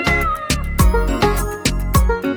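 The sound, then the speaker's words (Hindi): Repeated cat meows sound in a row over a steady musical beat, in a song about a troublesome house cat that raids the kitchen at night. “म्याऊं म्याऊं म्याऊं म्याऊं करती जाती”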